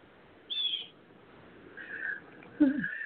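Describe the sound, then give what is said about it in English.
Birds sing outside through open windows on a sunny Oklahoma day: a short high chirp, then a few softer tonal calls, all faint against a quiet background. “it's a beautiful day here in Oklahoma today, and the windows are open, and I can hear the birds singing”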